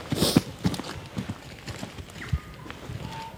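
Irregular crunching footsteps of people walking through the bush on a hunt, soft uneven thuds at a slow pace, with a few faint high chirps near the end.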